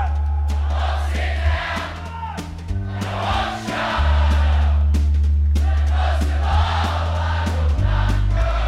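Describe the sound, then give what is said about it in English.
Crowd at the 2013 Newport Folk Festival singing a chorus together, many voices in loose unison over sustained low instrumental notes that shift pitch between phrases, loud and continuous. “That's a beautiful sound. You know what that is? That's the sound of people singing together,”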